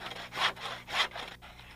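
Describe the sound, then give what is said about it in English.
Rip saw cutting lengthwise down the middle of a wooden log five inches across and forty-two inches long: a few rhythmic, raspy back-and-forth strokes, soft and even, with no talk. “I decided ripping them with a rip saw was the answer. I could go down the middle of a log 5 inches in diameter and 42 inches long in 15 minutes.”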